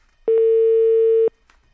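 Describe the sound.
Telephone line tone as a call is placed: one steady, unbroken mid-pitched tone lasting about a second, starting and stopping abruptly, with no talk around it.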